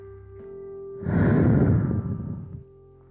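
A single slow, breathy exhale during a breathing exercise swells into a soft rush of air, holds for about a second and a half, then tapers away, heard alone against near silence.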